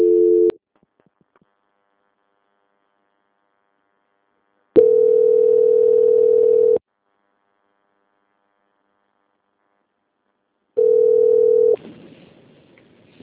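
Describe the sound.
A telephone tone plays while a call is transferred: a brief tone at the start, then two steady mid-pitched tones of about two seconds each with silence between, the last one cut short by faint line hiss.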